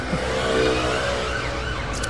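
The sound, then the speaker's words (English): An ambulance siren wails steadily through continuous traffic and road noise, fairly loud throughout, with no talking. “Can't think when that ambulance is yelling at”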